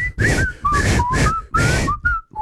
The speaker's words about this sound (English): I just knew it by the whistle. I've never really watched the show. This whistle?